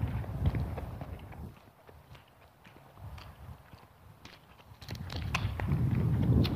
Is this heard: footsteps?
yes